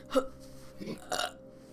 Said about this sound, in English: If I don't burp, I explode.